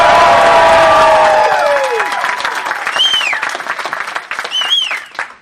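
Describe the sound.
A studio audience at a comedic debate show applauds and cheers loudly. Whoops and shouts ring out over the clapping, with bright whistle-like cheers partway through, before the noise gradually thins out toward the end.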